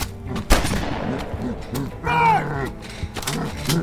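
Gunshot fired point-blank at the face of a charging creature: one sharp, loud crack early on, set among rough vocal noise and a bellowing, groaning creature cry.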